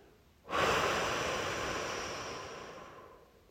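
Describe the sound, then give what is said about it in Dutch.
Deep, airy breathing during a guided relaxation exercise meant to go in through the nose and out through the mouth: one long breath noise begins abruptly and slowly fades over about three seconds, with no talking. “Adem de keer goed in langs je neus. Eventjes vasthouden. En dan gaan we goed uitademen langs de mond.”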